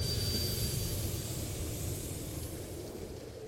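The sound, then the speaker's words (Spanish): A coal-fired commuter train stands at the station in Revere, Massachusetts, in 1871, giving off a steady, fairly quiet rumble and hiss that slowly fades, with a faint high whine early on. “Un tren zonal está parado en la estación de Revere, en Massachusetts.”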